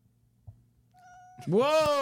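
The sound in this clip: A cat meows once, a loud drawn-out cry that rises and then sinks, at the end after a stretch of faint background sounds and a thin steady tone.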